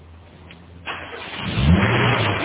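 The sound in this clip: A car engine catches almost instantly after a brief crank, then revs up with a rising, throaty roar and holds at a steady run.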